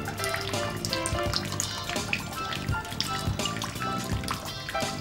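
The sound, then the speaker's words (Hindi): Hands are washed under a running tap, the water splashing and trickling steadily and fairly loudly for several seconds without a break. “ठीक से हाथ धो, तुम भी धो तो, ठीक से धो।”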